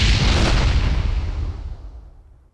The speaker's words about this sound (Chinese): 开枪啊！